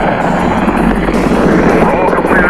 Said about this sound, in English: We have commit and we have liftoff at 2:13. The Saturn V building up to 7.6 million pounds of thrust, and it is clear the tower.